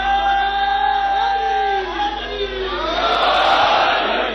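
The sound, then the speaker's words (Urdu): A crowd shouts a slogan at a Shia mourning (azadari) gathering. Loud voices hold long shouted tones that swell into a dense massed roar toward the end. “اب نعرہ لگاؤ تو میں دوسری طرف آؤں.”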